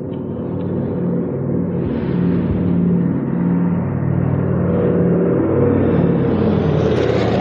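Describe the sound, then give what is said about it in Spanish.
Low, continuous droning rumble of a twin-engine propeller plane flying low overhead. The sound is loud and steady throughout, with a dense low hum and a slight brightening toward the end. “Un bimotor a hélices le sobrevuela desde sus espaldas a baja altura.”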